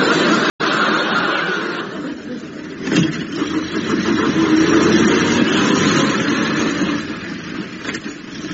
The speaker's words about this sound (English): Anyway, you two want a lift, do you? Yeah. Oh, yes, please, Joe, yes. Right, hop in. Yes. Can you drive quite fast, please?